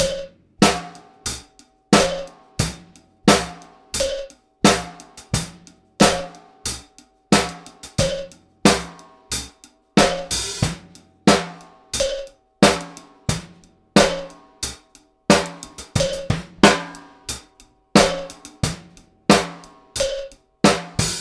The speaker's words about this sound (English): In this case, the click will be creating a 3-4 cross rhythm in 4-4. It would sound like this.